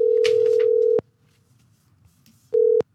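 Italian telephone ringback tone heard while calling a café-pastry bar. Two long, steady mid-pitched beeps are separated by a pause, with faint background noise between them.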